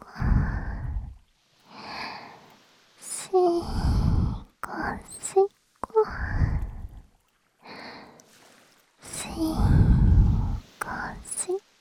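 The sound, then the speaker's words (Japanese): Deep, slow breathing: several long, breathy inhales and exhales, separated by short silences, with soft voiced sighs mixed in. The breaths are close and fairly loud, and no clear talk is heard. “深呼吸”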